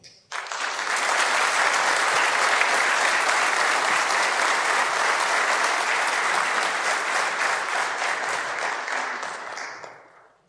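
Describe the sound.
Audience applause welcoming a speaker at a morning gathering, steady, loud clapping that starts suddenly and holds for about ten seconds before tapering off.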